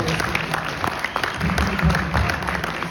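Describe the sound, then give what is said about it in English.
An audience claps during a fan convention panel. The applause runs steadily at a moderate level, with people's voices mixed in. “I think, go ahead, clap for that, right?”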